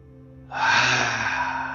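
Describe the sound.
A deep inhale during a guided breathing exercise comes in sharply after a short quiet pause, then holds as a loud, airy rush of breath to the end, with no talk.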